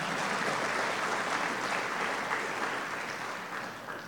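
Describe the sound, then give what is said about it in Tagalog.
A church audience claps together in praise during a sermon, dense sustained applause lasting about four seconds that tapers slightly toward the end. “Pwede mo palakpakan natin ang Panginoon, no?”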